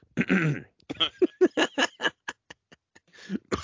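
Coughing from bronchitis: one longer harsh burst, then many short, choppy hacking pulses in quick succession.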